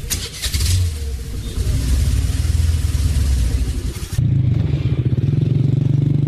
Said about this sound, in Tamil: வண்டியை ஸ்டார்ட் பண்ணிட்டுமா? வண்டியில் உட்காந்துட்டியா? வண்டி வண்டி ஓட்டுப்பா.